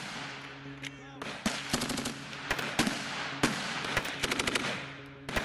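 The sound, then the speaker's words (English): Gunfire from beyond a fence at an oasis: repeated rapid bursts of automatic shots and single cracks, many sharp reports in quick succession, loud throughout with a rough rushing noise between them. “The oasis is lit up with muzzle flash from beyond the fence.”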